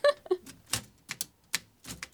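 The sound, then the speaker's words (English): Keys striking on a 1920s Underwood Standard manual typewriter, a series of sharp, fairly faint clacks at an uneven, hesitant pace. “I gave a 1920s Underwood Standard a try. Is it even typing?”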